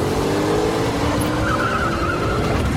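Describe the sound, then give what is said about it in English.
An Audi car swerving off a motorway and up a grass embankment, its engine roaring loud and unbroken, with a brief squeal-like tone rising over the noise. “The Audi driver swerves off the motorway and up a grass embankment. Struggling to keep control, he zooms along”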